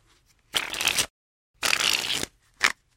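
Shuffling of a deck of B-back Stinger playing cards made by the U.S. Playing Card Company: three separate bursts of crisp riffling, two longer and a final short one, fairly quiet with silent gaps between.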